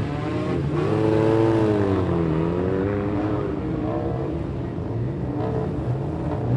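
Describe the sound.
A speedway sidecar outfit's engine fires up and revs, giving a loud, rough, buzzing drone whose pitch swings up and down repeatedly as the throttle is blipped.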